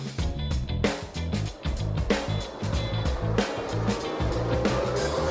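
Formula 1 cars, a Ferrari and McLarens, race past in a continuous dense engine roar that swells and dips in a few surges with no break.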